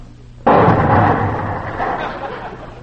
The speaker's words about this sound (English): It lights fast, don't it? Did you see the flame shoot out of there?